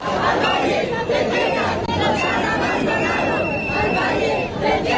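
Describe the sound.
A crowd of protesters in central Madrid demonstrating over the Ávila wildfire gives off a dense, continuous roar of chatter and raised shouting voices that hardly dips across the whole stretch.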